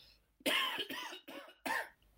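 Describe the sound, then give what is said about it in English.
A person coughs four times in a quick, harsh series. The coughs sound rough and throaty, each one a short loud burst separated by brief pauses, with near silence before and after. “Wait, I need to cough.”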